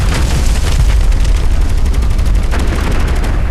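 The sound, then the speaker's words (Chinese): Machine gun fire in a video game: a loud, unbroken stream of rapid, booming shots with a dense rumbling low end, keeping up a fast, even rhythm throughout. “糟了，我们被盯上了。这是机枪扫射，我一定被盯上了”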